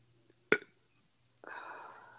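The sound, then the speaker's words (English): A person burps, a rough, drawn-out throaty sound lasting under a second, preceded by a brief sharp click-like noise in an otherwise quiet room. “I couldn't tell if that was a burp or a fart.”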